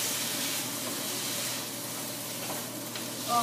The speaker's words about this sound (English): Put the wine in now. Okay, stir that round so that evaporates.